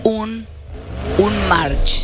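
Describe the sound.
Engine revving from a small red Nissan March on 17-inch rims, lined up in lane one of a two-lane race. A continuous, buzzing mid-pitched roar swells in short rising surges, ending in a brief bright hiss.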